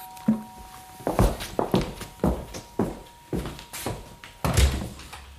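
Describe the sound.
Someone climbs a staircase, a steady series of many dull, heavy footfalls with no voices.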